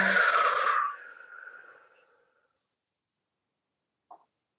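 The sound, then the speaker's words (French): A deep breath in followed by a breath out during a guided relaxation exercise: a loud, airy rush lasting about a second, then a softer exhale that fades to silence. A single faint click comes near the end. “Et là, de nouveau, on va prendre une grande inspiration. Et on expire.”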